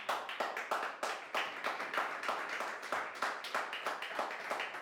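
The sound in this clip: Applause and clapping for Jesus during a church service: many quick claps in a steady, fairly even rhythm that fill the whole passage at a moderate level, with no talk over them.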